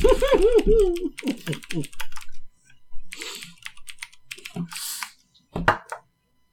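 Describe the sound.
Typing on a computer keyboard, rapid clicking in bursts mixed with a man's voice talking over and between the keystrokes.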